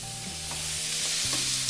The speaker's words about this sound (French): Je baisse un peu le feu sous les oignons. Je vais les faire suer sans qu'ils ne colorent.